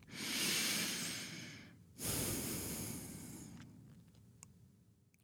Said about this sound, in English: Take a deep breath.